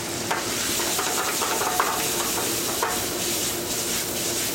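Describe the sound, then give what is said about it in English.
Cajun-style shrimp primavera with rotini sizzles steadily in a pan of wine, oil and seasoning, a constant bright hiss broken by occasional stirring scrapes and soft clicks, with no talking. “And because we have the wine and we have all the oil in there already, just simmering with the seasoning, it makes a little gravy.”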